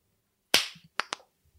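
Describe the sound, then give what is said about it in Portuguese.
A group attempts to clap together on cue, producing a few uneven hand claps: one loud clap, then two sharper ones close together, with no voices. “Você bateu palma e já começou a falar. Tem que dar um segundinho. Senão bate não a palma, vai bate a palma. Bate a palma.”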